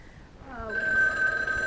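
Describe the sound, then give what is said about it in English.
A telephone rings once, its electronic bell tone starting partway through and holding steady and fairly loud until the end, with no talk. “I'm sorry, we were interrupted briefly by the telephone ringing.”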